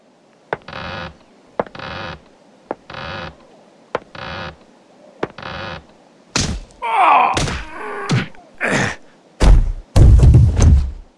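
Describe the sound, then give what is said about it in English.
Pirates strike sailors on the head with pistols aboard a Spanish ship: a series of dull, hollow thunks spaced across several seconds, followed by groaning voices and heavier thuds. “The pirates go behind the sailors and hit their heads with their pistols.”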